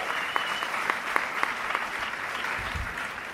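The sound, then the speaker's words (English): A live audience at IFC 2019 bursts into applause, a dense and steady patter of clapping throughout, with a few sharper individual claps standing out above the crowd. “Welcome to IFC 2019. Can I get a woo? Yes!”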